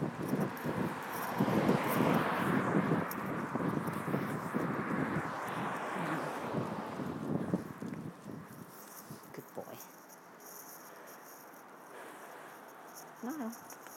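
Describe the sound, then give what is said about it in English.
Outdoor wind buffets the microphone in a heavy, gusty low rumble for most of the stretch, then eases to a quieter hiss toward the end. “Sorry about the wind, everybody.”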